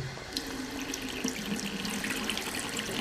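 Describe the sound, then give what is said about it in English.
Tap water runs continuously into a sink as tomatoes are rinsed, a steady splashing rush with no pauses. “I'll rinse the tomatoes immediately.”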